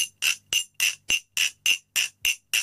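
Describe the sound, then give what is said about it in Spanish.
Bright, ringing taps on a glass bottle come in a quick, even series of many strikes, while the hand holding it alternates between closed and open around the glass. “Lo que estoy haciendo es cerrar y abrir la mano a la hora de aguantar la botella. Mano cerrada, mano abierta.”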